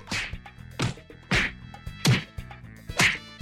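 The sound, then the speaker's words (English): Repeated whacks land as a person is hit again and again: five sharp, loud blows spaced roughly evenly apart, with quiet gaps between them. “Stop! Stop! Why are you hitting me? Please stop!”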